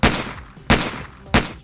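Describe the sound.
Three sharp pistol gunshots at an even pace, roughly two-thirds of a second apart. Each is a loud, hard crack with a short decaying tail, and no voices are heard.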